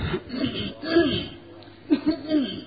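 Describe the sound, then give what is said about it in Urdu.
Someone clears their throat with a few rough, muffled coughs in two short clusters separated by a brief pause. “کھانسنا بھی ضروری ہوتا ہے، line clear ہوتی ہے نا.”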